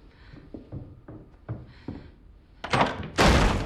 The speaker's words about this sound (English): The door flies open.